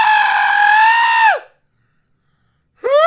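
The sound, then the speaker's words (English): A person fakes a yawn with a sustained, loud voiced tone that ends in a sharp downward drop in pitch. A short silence follows, then another vocal sound starts rising at the very end. “Let me act like I'm yawning.”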